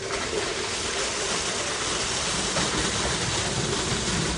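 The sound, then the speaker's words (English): Water hauled from another town's public supply being pumped into a residential well during a drought: a steady, dense rushing and splashing roar that continues without pause and with no voices. “The water being pumped into their well was hauled here from the public water supply of another town”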